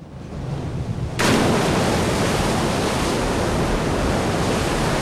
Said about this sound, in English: Waves crash over a rock on a sandy beach.